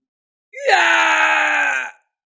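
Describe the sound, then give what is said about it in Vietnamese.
A man screams in agony as a golden spear pierces him: one loud, sustained cry of about one and a half seconds that jumps sharply in pitch at the onset and then holds steady before cutting off. “Kim Xích Tiêu hét thảm, bị hoàng kim chiến mâu xuyên thấu kéo đi bay ra ngàn trượng, ghim trên vách núi phía trước”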